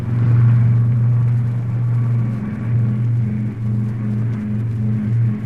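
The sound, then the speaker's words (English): Car speeding, a steady low engine rumble that drones on for about five seconds with a few brief dips in loudness. “But, alerted by the police, the Batman and Robin are speeding to the harbor in their Batmobile.”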